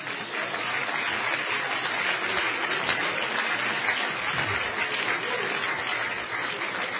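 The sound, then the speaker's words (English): A church audience applauding: dense, steady clapping that runs unbroken at an even loudness for the whole stretch, with no clear voices. “But let's everybody give the Lord a hand right now.”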